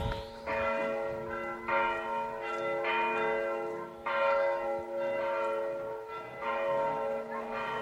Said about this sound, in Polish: Właśnie słyszę dzwony, to jest kościół diecezjalny nasz, bo jako Drohiczyn to najmniejsza diecezja w Polsce.